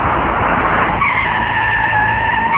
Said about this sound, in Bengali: গুলজার ম্যানশনের সামনে এসে থামলো তিনটি পুলিশের গাড়ি।